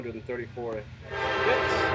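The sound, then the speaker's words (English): A train horn blares over the rumble of a passing train, rising loud about halfway through after a moment of talk at the start and holding a steady, bright tone to the end. “Little cameo by the train.”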